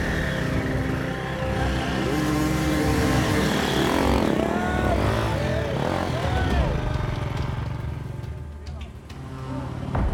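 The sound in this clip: A motorcycle engine revs and strains continuously as riders wrestle their bike through woods during a race. The loud engine tone warbles up and down with changing throttle.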